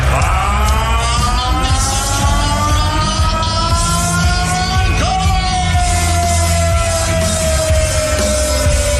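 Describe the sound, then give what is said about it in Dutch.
A large crowd at a darts event loudly chanting along to a song, a dense mass of yelling voices carrying a sustained, wavering melody. The pitch shifts midway, and the chanting stays continuous and loud throughout. “een nummer dat nog altijd luidkeels wordt meegeschreeuwd in de voetbalstadions, maar ook, ja, op ieder sportveld wat je maar kan bedenken. En bij het darten natuurlijk, want hoor dit even.”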